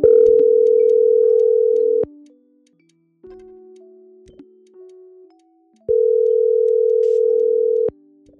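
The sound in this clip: Telephone line tones while a call is being placed: a steady, loud tone lasting about two seconds, then a quieter stretch of lower tones, then the loud steady tone again for two more seconds, with no talk.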